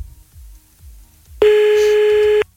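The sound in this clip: A telephone call is dialed: after soft low thumps, one loud, steady electronic tone sounds for about a second and then cuts off.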